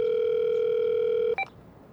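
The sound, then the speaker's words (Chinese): A steady telephone dial tone hums alone for over a second as a call is placed. It stops, and one brief dialing beep follows, then quiet line hiss. “江前挂了电话，换了会儿气，又打了另一个。”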